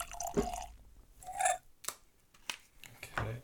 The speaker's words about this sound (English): Anyway, let's pop this bottle.